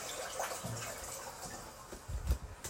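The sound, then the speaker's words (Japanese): A toilet flushing: a soft wash of running water with low gurgles that builds into a brief swirl near the end, faint and with no talk. “ちょっとトイレの水を流すので、ちょっと音量注意で多分うるさいと思うので、すいません、流します。”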